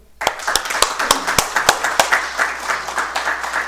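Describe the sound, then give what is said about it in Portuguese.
An audience gives a standing ovation at an honorary ceremony in Uruguaiana: a loud wash of clapping starts suddenly, with sharp, evenly spaced claps standing out in a steady beat throughout. “Uruguaiana aplaude de pé tua vida e tua obra.”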